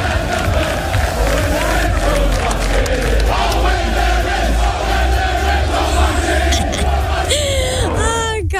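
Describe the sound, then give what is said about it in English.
Football fans in a fan zone in Paris roar and yell as a crowd, a dense, loud, continuous wall of voices that holds steady throughout. “They're already making plenty of noise at a designated fan zone area there in the French capital as well. We'll have a listen. We'll see how loud they are.”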